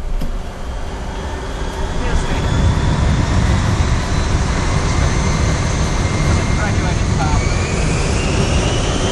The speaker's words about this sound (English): We're sorry about the delay, but we are now cleared for takeoff.